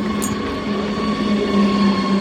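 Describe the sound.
A train runs along a nearby railway with a steady, loud rumble and a sustained low hum, a faint high squeal at the start and no voices.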